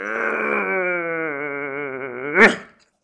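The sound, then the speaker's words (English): A person yawns while stretching, letting out a long voiced groan that wavers slightly and sinks in pitch for about two seconds. It ends in a sudden breathy release, then falls silent. “Let's take a little break because I'm yawning and stretching, trying to come alive”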